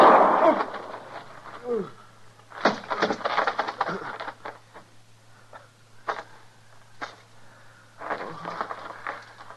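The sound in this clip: A gunshot goes off in a Gunsmoke western radio drama: one sharp, loud blast right at the start. Strained voices then talk and groan over a low hum, with a few small knocks.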